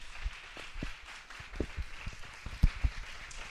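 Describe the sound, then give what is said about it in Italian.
Scattered applause from an audience at an Italian-language talk: quiet, irregular hand claps that come in loose bursts rather than a dense roll over a few seconds. “Siamo riusciti ad avere l'applauso, quindi si vede che è colpito.”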